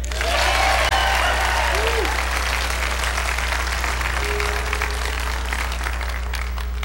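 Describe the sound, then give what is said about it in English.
Before a song, an audience hollers and cheers with applause in a loud, sustained burst of shouts and clapping. A steady low hum runs beneath the whole clip. “My goodness, y'all didn't have to holler.”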